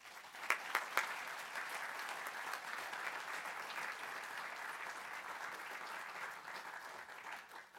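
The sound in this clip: An audience applauds to welcome a speaker to an evening history lecture held by a Virginia historical society, with steady, dense clapping throughout and a few sharper individual claps near the start.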